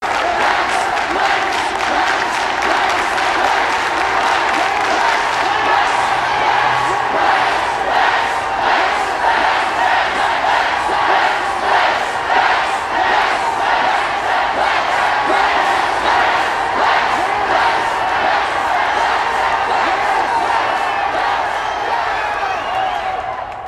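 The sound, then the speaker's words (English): A large auditorium crowd cheers and chants in a steady pulsing rhythm, giving Lex Luthor a hero's welcome in a Superboy TV drama scene. The roar stays loud and sustained throughout. “At an auditorium filled with people dressed in black, our dimension's Lex Luthor enters to a hero's welcome.”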